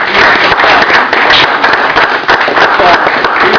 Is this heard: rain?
no